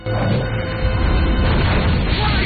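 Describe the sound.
A Molotov cocktail exploding on a car bonnet, starting abruptly and rolling on as a loud, sustained, roaring rumble that swells slightly midway and never fades out.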